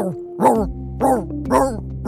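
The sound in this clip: A voice actor imitates a singing dog with four howling, sung vocal bursts in an even rhythm, each rising then falling in pitch, alone without other sounds.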